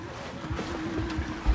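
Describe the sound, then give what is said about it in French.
Groundwater flowing through underground fishbone-pattern tunnels and wells, a faint, steady low rushing and trickling that continues without a break. “Alors l'eau que vous entendez couler, là, en fait, c'est, n'a rien à voir avec les arêtes de poisson.”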